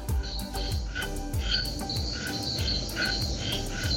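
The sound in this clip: Night jungle ambience in a beachside garden in Cahuita: a dense, steady chorus of croaking frogs and chirring insects, with repeated croaks pulsing throughout and no voices.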